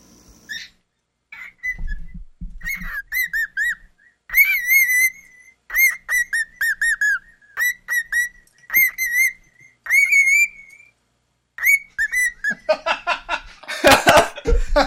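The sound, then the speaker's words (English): A pet cockatoo, almost 22 years old, whistles many short, bright phrases in quick bursts separated by brief pauses, some notes sliding up or down, ending with a harsher, noisier burst near the end. “that is my little buddy, Herman, my pet cockatoo who is still wants to talk. He's about almost 22 years old. And he wanted to open the show today.”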